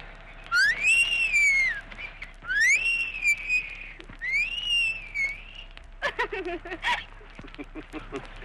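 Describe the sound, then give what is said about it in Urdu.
A woman whistles three clear, high phrases, each gliding upward and then holding a steady tone. A busier burst of sound follows near the end. “اگر وہ کچھ بولے تو منہ سے پھول جھڑتے ہیں لیکن وہ بات کم کرتی ہے سیٹی زیادہ بجاتی ہے”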